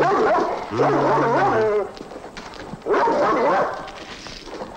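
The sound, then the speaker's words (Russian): A dog barking in two loud bouts of yelping, whining barks, separated by a quieter gap of faint rustling. “Лает собака.”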